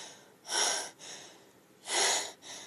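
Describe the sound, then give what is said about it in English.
Heavy, ragged gasping from a person in pain struggling to regain their breath after being strung up by a rope. Two loud, harsh breathy gasps are separated and followed by softer breaths, with no talk. “I straighten up and try to regain my breath.”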